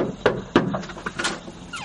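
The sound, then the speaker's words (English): Knocking on a house door to fetch a tattoo machine: a few quick, sharp knocks in an uneven rhythm, the first two strongest, followed by lighter taps. “Let me just knock on the door and grab it real quick.”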